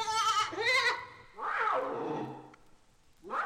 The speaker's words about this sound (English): Or this baby tar goat, who sounds much more like the fawn than he does his cousins. These baby domestic goats.